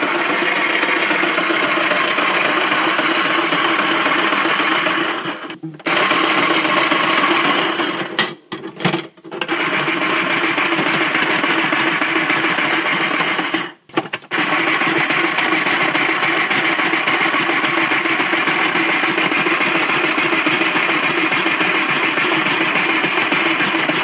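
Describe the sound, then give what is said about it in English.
An electric mandolin slicer runs a potato into thin chips with a loud, steady buzzing motor drone, broken by a few brief dips. “we're going to run a potato through the electric mandolin slicer, and I'll show you what that sounds like.”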